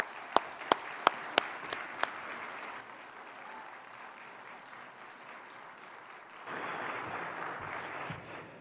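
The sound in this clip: A church audience applauds to welcome a guest pastor. A few sharp, distinct claps open into dense, sustained clapping that swells louder near the end.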